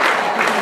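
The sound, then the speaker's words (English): Kansas City Royals crowd cheering at their home baseball stadium during an October game, a brief, dense, loud roar of voices and clapping. “So here is the sound of the Kansas City faithful at the K, keeping it real.”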